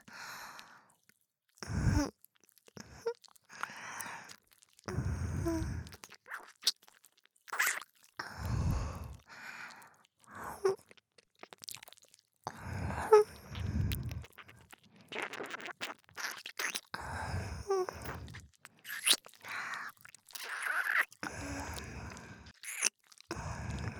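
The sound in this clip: Food being eaten: crunchy bites and moist chewing in many irregular bursts, with short pauses between mouthfuls and no talking.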